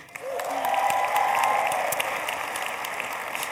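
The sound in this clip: An audience applauds to welcome the speaker's eldest daughter on stage: many hands clap at once in a dense, even patter that starts quickly, holds steady, then eases slightly.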